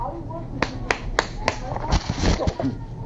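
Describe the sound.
A boy claps his hands four times at school, each clap sharp and evenly spaced, before people talk over a rough, moderate background.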